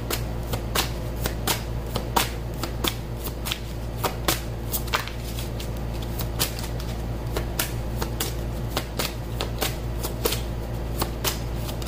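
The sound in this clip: Tarot cards are shuffled in a long, even run of rapid, crisp riffling clicks that continues steadily throughout, over a constant low hum.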